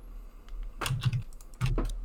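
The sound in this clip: Typing on a computer keyboard, heard as two short bursts of clustered key clatter over a quiet background, with no talking.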